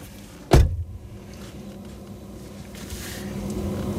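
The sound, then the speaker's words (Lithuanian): A door is shut with a single sharp, dull thud, followed by a faint steady background. “Dabar uždarysime duris”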